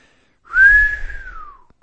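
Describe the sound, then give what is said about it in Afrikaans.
A single long whistle of astonishment from a passer-by at a city. It is clear and fairly loud, rising slightly, holding, then gliding downward for about a second before fading. “Almal wat by die stad verbygaan, gee lang fluite van verbasing.”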